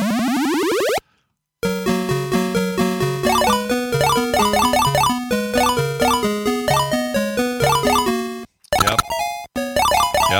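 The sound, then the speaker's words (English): Electronic sounds from the Frogger arcade video game during successful play: a rapid run of rising beeping sweeps, a brief silence, then a bouncy square-wave tune with a steady pulse, and finally another short gap and a burst of blips. “You hear that? That's a bunch of successful frogging. That's how you know you're successful at Frogger, if you hear all this noise.”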